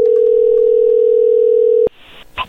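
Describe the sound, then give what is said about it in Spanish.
A telephone dial tone while a call is being placed, a loud, steady single-pitched hum for about two seconds that cuts off with a click, followed by faint brief line noises. “Bueno, ahí se está marcando.”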